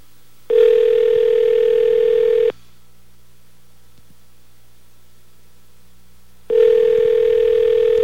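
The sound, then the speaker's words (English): Ringback tone of an outgoing telephone call: two long, steady buzzing rings separated by about four seconds of near silence, the second ring cut off at the end. “A lot of rings.”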